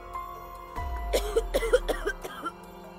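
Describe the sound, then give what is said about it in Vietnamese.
An ill woman lying in bed has a violent coughing fit, coughing up a little blood: a rapid, uneven run of harsh, hacking coughs that starts after a quiet opening and lasts about a second and a half. Low rumble underneath. “Tam Nương ở trên giường ho lên một trận sặc sụa rồi ngồi bật dậy”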